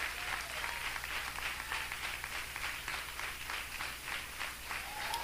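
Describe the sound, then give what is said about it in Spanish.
A church audience clapping in praise to God: many hands beating in a steady, rhythmic pulse, faint but continuous from start to finish. “Y será da palmas a Dios, désela con todo el corazón.”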